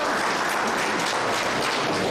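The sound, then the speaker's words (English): Audience applause at a formal meeting, an even, continuous patter of many hands clapping that holds steady at a moderate level from start to finish. “Please, let's clap for Medira Dhirini and her team.”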